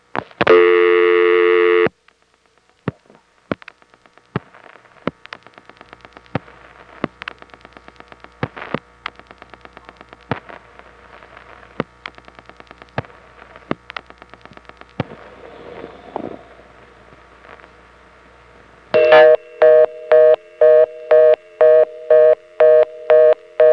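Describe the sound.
A telephone reorder tone after a misdialed local call: a loud steady tone burst, then a long run of sharp, evenly spaced clicks, ending in a fast, steady pulsing of loud harmonic tone beeps.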